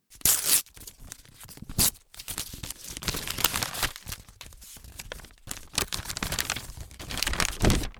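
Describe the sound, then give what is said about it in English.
An envelope is torn open to get at a letter inside, a string of short paper-ripping and crinkling bursts with brief pauses between them and no talking. “I am now opening the letter. The letter sounds like this when I open it.”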